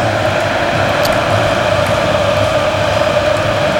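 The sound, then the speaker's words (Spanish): A celebrating football stadium crowd of Argentine fans, tens of thousands strong, at a World Cup match during a comeback, a loud, dense, continuous roar with no breaks and no single voice standing out. “Vaya fiesta en el estadio. Esto es lo que se escucha.”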